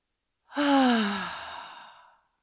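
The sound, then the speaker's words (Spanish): A forceful exhale through the mouth during a yoga breathing exercise: one long, breathy rush of air that starts strongly and slowly fades away, heard alone. “Y exhala fuerte por la boca todo.”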